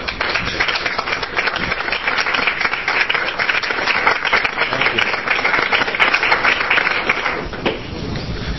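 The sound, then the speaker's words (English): A committee audience gives a standing ovation: dense, sustained applause holds steady for several seconds, then eases slightly near the end. “This committee wants to give you a standing ovation right now. We'll ask the audience to do so.”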